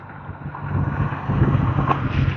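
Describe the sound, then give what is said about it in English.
A breeze blowing, heard as a steady, low, rushing rumble of wind that grows a little louder partway through and then holds, with no voices. “The wind is blowing. It's a very nice breeze.”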